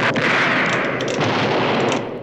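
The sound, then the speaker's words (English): Four gunmen fire in a western shootout, and the rapid volley blends into one loud, dense roar of shots that lasts about two seconds and then starts to fade. “Kirk puts his hand to his gun. The four gunmen open up. Bullet holes appear in the fence behind Kirk and the others, but they remain unharmed.”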